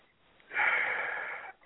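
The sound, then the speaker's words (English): A single deep breath drawn in slowly, a steady airy rush lasting about a second, heard alone with no talk. “Holy Spirit, I'm taking a deep breath and you're coming in.”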